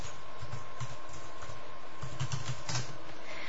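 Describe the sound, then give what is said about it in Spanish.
Typing on a computer keyboard while a blog address is entered into a chat: a quick, steady patter of many light key clicks with no talking. “Les voy a escribir aquí su blog. Un segundo, les escribo aquí en el chat su blog para que lo puedan visitar.”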